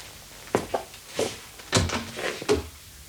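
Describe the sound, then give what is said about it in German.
Someone knocks at a door in a dramatised scene: several dull, irregularly spaced thuds, moderately loud, spread over a few seconds. “Da ist jemand an der Tür.”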